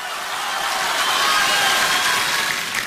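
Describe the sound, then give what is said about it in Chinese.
Audience applause after an elderly duo's comic crosstalk stage performance, a broad, even hiss of clapping that swells slightly toward the middle and holds steady. “谢谢大家的掌声， 谢谢。”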